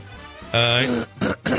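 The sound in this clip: Throat clearing: a voiced, rasping hum followed by two short, harsh bursts. It is loud and heard alone.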